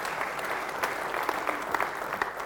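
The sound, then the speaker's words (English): Audience applause: a dense, steady wash of many hands clapping, with a few sharper claps standing out, continuing throughout with no talk over it. “Give this guy a round of applause.”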